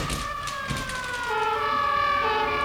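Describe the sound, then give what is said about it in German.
Emergency vehicle sirens wail loudly and continuously, their steady tonal bands holding and wavering slightly throughout, with no voices over them. “Was ist das? Sirenen!”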